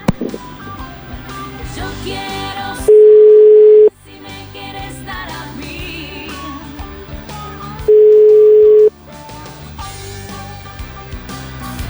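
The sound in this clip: A telephone call's ringing tone: two steady, one-second beeps at a single pitch, several seconds apart, with music playing through the gaps.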